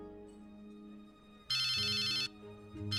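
A phone ringtone sounds in a dubbed animated scene as one loud, bright electronic burst lasting under a second, followed by a second burst starting near the end over a low tonal background.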